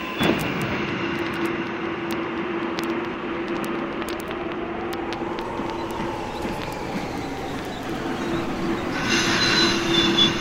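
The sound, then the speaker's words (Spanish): Train at Boulogne railway station, a steady rolling rumble with high squealing wheels and faint tones over it, growing a little louder near the end. “La última vez que vi a Juana fue acá, en la estación Boulogne.”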